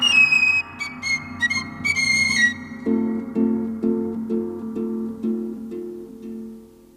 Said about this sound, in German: Doch er besinnt sich, hält inne und spitzt stattdessen die Lippen zu einem Pfeifen. Er pfeift die ersten Takte eines Kirchenliedes.